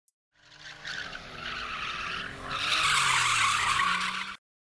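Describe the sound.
A car's tires squeal and skid as the driver turns the steering wheel sharply on a narrow, dark, winding road. The continuous screech grows louder partway through, holds, then cuts off abruptly.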